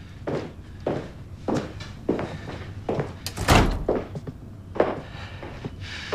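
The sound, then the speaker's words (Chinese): A door is shut with one heavy, loud thud midway, set among a few softer thumping footsteps before and after. “把门关上。”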